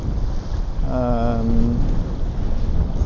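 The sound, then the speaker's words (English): Sea waves wash in the background under strong, rough wind buffeting at a windy fishing spot, with a brief steady tonal hum in the middle. “there's quite a lot of waves here, as you might be able to hear in the background.”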